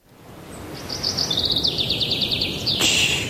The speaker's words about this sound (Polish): Spłoszysz ptaszki.